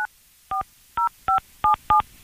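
Telephone keypad dialing tones as a number is dialed: six short, even electronic two-tone beeps at a steady quick pace, clear and alone with no voices.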